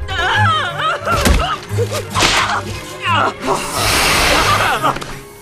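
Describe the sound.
Sharp whipping swats and thuds as a bee is struck by a rolled-up newspaper, a pink swatter and a shoe, a few quick impacts mixed in with voices, followed by a broad, steady hiss.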